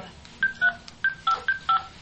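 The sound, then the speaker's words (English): Six touch-tone beeps dial a toll-free number on a regular phone line running through a Magic Jack internet phone adapter. The short, bright tones come in a quick, fairly even rhythm. “So I'll dial 800-555-TEL.”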